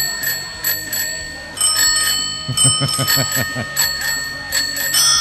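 Bicycle bells from a rock song ring in a bright, busy chorus of overlapping metallic dings, with a run of rapid, rhythmic lower strikes in the middle and quick trills throughout.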